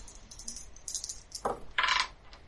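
Dice rattle and clatter as they are rolled for damage during combat in a tabletop role-playing game, giving a few quick, light clicks and faint rattling bursts over a quiet background.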